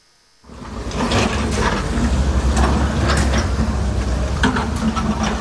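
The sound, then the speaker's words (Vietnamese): Excavators, hoes and shovels clear flood debris from roads, a steady mechanical rumble with many clanking and scraping strikes, rising abruptly from near silence at the start. “Từ sáng sớm, trên những con đường còn in dấu dòng nước lũ, tiếng máy xúc, tiếng cuốc, tiếng xẻng lại vang lên.”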